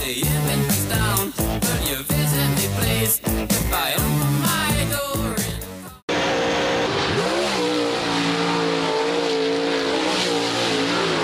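Race cars speeding around the track at the Little 500 race, a go-kart speedway: loud revving engines with tire squeals and skids, the engine pitch swooping sharply near the middle before a dense, continuous roar takes over.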